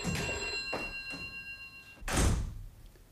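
A telephone rings in a home with a bright, trilling electric bell for about two seconds, then a single heavy thump sounds, like a door closing.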